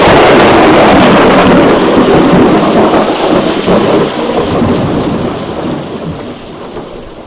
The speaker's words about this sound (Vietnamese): Đột nhiên một tia sét xé toạc thiên không, sấm sét đùng đùng khiến ai nấy đều giật mình.